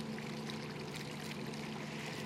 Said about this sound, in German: Heute ist der Stein ein Brunnen. Wasser fließt heraus.